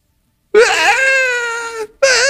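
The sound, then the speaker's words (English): A voice imitates a small child crying in a tantrum. It gives a loud, wavering, high wail that holds for over a second, breaks off briefly, then starts a second wail. “He opens it, he sets it aside and he throws a tantrum.”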